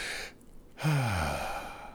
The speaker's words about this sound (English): Sorry, I'm kind of out of breath for some reason. I don't know why. Let me take a deep breath.